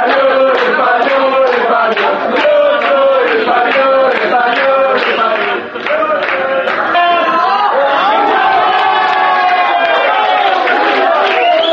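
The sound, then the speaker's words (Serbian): Spanish fans cheer in cafés in Serbia during the final against the Netherlands: loud, continuous crowd voices chant and shout in steady, rhythmic bursts with no break. “Španci su navijali i u kafićima u Srbiji.”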